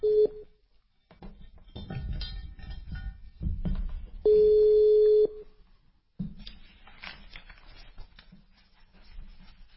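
A telephone call being placed: a brief steady tone at the start, then a single longer steady tone lasting about a second, with low rustling and faint background noise around it.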